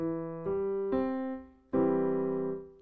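Chord in inversion with its bottom note moved up an octave: sustained tonal notes enter one after another, then a fuller chord rings out and slowly decays.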